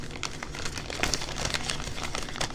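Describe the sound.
Paper crinkling as a tightly folded note is opened, with many small crackles and rustles in an uneven run, fairly quiet and alone.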